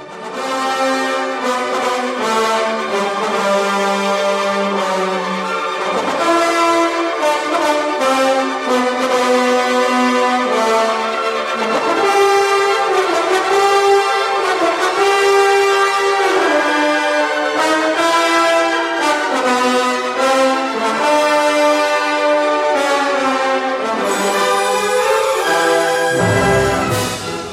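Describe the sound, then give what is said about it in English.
Wagner's Prelude to Act 3 of Lohengrin, played by an orchestra under a conductor: a full orchestra sounds loud and dense throughout, with rich sustained chords and driving, busy figures that continue without pause. “Just a little bit of that sound is Prelude to Act 3 from Lohengrin.”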